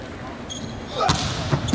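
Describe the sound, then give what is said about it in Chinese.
Sharp smack of a volleyball struck by a powerful straight-line jump serve that scores an ace for China in an international match. A single crisp hit is followed by a couple of softer thumps under faint commentary. “好发球，王斌的直线大力跳发直接得分”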